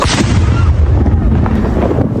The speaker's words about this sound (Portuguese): o esquadrão de bombas isolou a área e, em seguida, detonou o artefato com segurança. Vai haver uma explosão! Vai haver uma explosão!